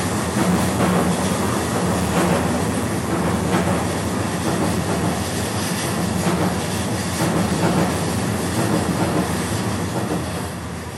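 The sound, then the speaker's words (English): A train passes over railway tracks near a bridge: a loud, steady rumble with clattering wheels and metallic rattle that holds throughout and eases slightly at the end, with no talk. “Most of what I do is I'm gonna wait for this train to pass.”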